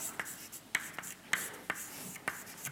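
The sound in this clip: An equation is handwritten during a lecture on active gels: faint, irregular short taps and scratching strokes, several quick marks spaced unevenly with quiet between them.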